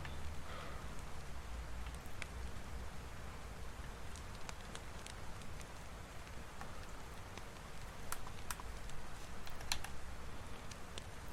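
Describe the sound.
Steady rain falls in a video game's night scene in the middle of nowhere, a constant even hiss that holds at the same level throughout with no talk.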